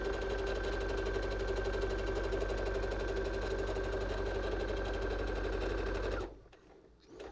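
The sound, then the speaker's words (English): Sewing machine stitching the inseam of jeans, basting from the hem up to the easing marks at the knee: a loud, steady, fast mechanical whir with a constant hum that runs for about six seconds, then stops abruptly. “so I'm going to sew up from the hem all the way to those easing marks.”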